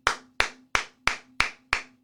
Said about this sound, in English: clap it up for a former Cowboy coach.